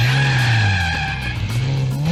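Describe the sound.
Racing car skidding in a computer racing game: a continuous tire squeal and engine drone lasting about two seconds. The sound is loud and steady, with its pitch dipping slightly and then rising again near the end.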